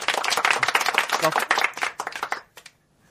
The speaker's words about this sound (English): Get a round of applause up for that.